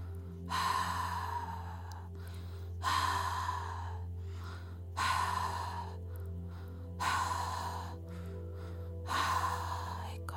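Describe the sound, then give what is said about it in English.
Five long, breathy exhales released at an even pace about two seconds apart, each a soft airy rush over a steady low hum. “Releasing through the breath.”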